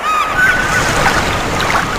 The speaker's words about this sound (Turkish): Bu sesler size neyi hatırlatıyor? Deniz, güneş, unutulmaz yaz tatilini mi?